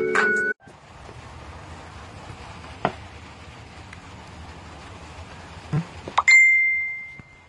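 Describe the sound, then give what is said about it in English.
A phone's text message alert gives a bright, high ding that rings on briefly near the end, over a steady soft hiss, with a shorter tonal blip at the very start. “Somebody texted.”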